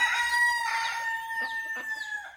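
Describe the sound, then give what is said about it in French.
A rooster crows: one loud, drawn-out call with strong ringing harmonics, broken near the end by a couple of short, clucking notes. “Le coq me réveille en sursaut.”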